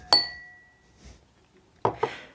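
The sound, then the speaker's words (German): Drinking glasses clink in a New Year toast: one bright, ringing clink that decays slowly, then a soft knock and two quick clinks close together near the end. “Zwei Gläser im Dreivierteltakt.”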